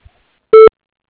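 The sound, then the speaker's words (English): A single short voicemail beep cues the caller to leave a message. It is one loud, steady mid-pitched tone lasting a fraction of a second, with silence around it. “Please leave a message at the tone, and someone will get back to you as soon as available.”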